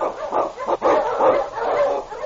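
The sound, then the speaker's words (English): A team of sled huskies barks and yips in many overlapping, excited calls, mixed with whines, in a thin, muffled recording as the team is urged on through snow and storm in the Yukon. “Unchain! On, you huskies!”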